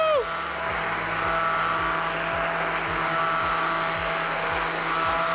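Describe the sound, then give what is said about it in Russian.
An electric blender blends food while cooking, a loud, continuous whirring motor with a rhythmic low pulsing running underneath the steady high whine. “И также еще раз блендерю.”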